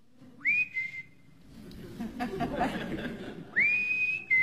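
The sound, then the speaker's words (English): A person whistles outside, sounding two bright notes that each rise and then hold, one near the start and one at the end. A softer stretch of rustling, murmuring noise fills the gap between them. “Someone's whistling outside.”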